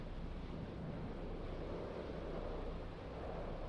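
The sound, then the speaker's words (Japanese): Wind blows steadily outdoors under a night sky, a constant faint rushing roar with no breaks or voices. “風、結構吹いてるな。”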